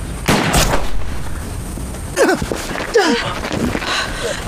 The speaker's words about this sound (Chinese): 你想开枪是吧？那让我帮帮你啊！